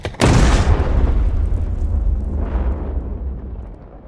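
A grenade explodes after boys run through a tripwire stretched across a path: one sudden, sharp blast, followed by a long, low rumble that slowly fades over several seconds.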